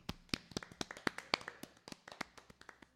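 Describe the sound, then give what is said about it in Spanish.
Applause for a departing teacher: many sharp, separate claps at a quick, steady pace, fairly faint, with no talk over them. “Un aplauso. Aplauso para aplauso.”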